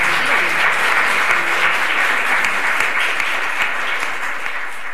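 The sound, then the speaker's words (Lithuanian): Stormy applause fills a lecture at a Catholic theology faculty in Lithuania as a visiting priest is welcomed. Dense, loud clapping from many hands holds steady, then eases slightly toward the end. “Manau, dabar audringi plojimai turėtų pasigirsti.”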